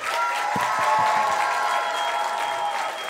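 Audience applause for guests at a live festival event, a dense, continuous clapping roar that holds at an even, loud level throughout.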